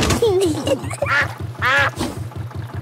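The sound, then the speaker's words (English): A cartoon duck quacks several times in a nasal, bright tone beside a small boat, with a steady low chugging pulse running underneath throughout. “Mrs. Duck is going faster than our boat. Want a race, do you, Mrs. Duck?”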